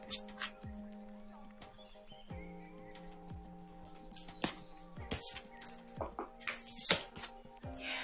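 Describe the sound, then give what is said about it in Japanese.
Oracle cards are shuffled and drawn: faint, quick papery snaps and rustles come in a few irregular bursts over a low steady background tone. “それでは今日のね追加でオラクルカードを引いていきたいと思います。お待ちください。”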